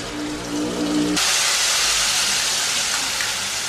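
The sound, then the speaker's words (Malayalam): Chili sizzles as it is poured into a pan of wilted ingredients for a mango curry, making a loud, steady frying hiss. A low hum fades out at about one second and the hiss brightens and continues to the end. “ഇപ്പം ഏകദേശം ഒന്ന് വാടിയിട്ടുണ്ട്. അതിലോട്ട് നമ്മുടെ മുളക് ഒഴിക്കാം.”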